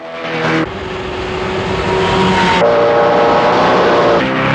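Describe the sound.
A speedboat engine roars as the boat accelerates across the water during a chase through bayou channels. The drone is loud and sustained, grows louder and shifts in pitch as it goes, and no voices are heard.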